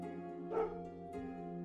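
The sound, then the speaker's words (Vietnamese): Faint, distant dog barking: a couple of short, soft yaps rise over a steady, humming tonal background and fade quickly. “Tiếng chó sủa văng vẳng truyền đến từ đâu đó.”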